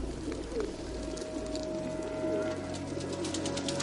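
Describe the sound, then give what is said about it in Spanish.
Soft, low cooing of pigeons gathered on a rooftop, faint rolling calls repeating over a steady background hum. “Desde la puerta de la azotea observa a Rachmat rodeada de palomas junto a una ventana.”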